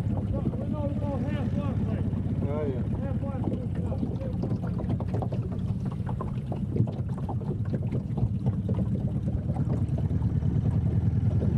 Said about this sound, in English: Those are the sounds of boating and of the lake.